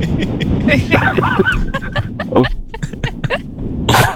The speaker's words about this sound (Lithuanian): Aš pradėjau kosėti vidurį, aš niekaip negalėjau, nes paspringau savo jogurtų valgytų.